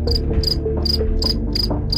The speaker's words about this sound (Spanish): hoy te vamos a dar unos grillos